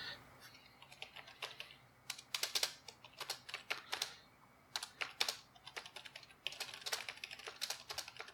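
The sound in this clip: A computer keyboard clatters with fast, faint key clicks. The typing comes in irregular bursts of rapid strokes separated by brief pauses, with no one talking.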